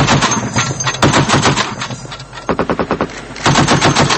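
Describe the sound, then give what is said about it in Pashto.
Automatic weapon gunfire rings out at night during looting and unrest in Bishkek: loud, rapid rattling bursts, about four of them, separated by brief gaps. “تیره شپه د تیارې له خورېدو سره د اتوماتو وسلو ډزې اورېدل کېدې.”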